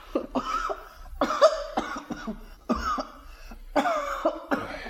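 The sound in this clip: A boy with a cough blamed on lead from helping in a workshop coughs again and again, a steady series of harsh, hacking bursts that carries through the whole stretch.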